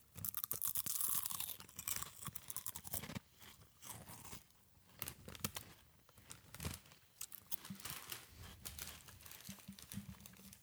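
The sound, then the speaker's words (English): Crunchy chip taken from a bag being bitten and chewed, rapid crisp crunches that are strongest at the start and continue in irregular bursts. “Let's reach in and grab a chip. Delicious. It's the chip. Let's take a bite”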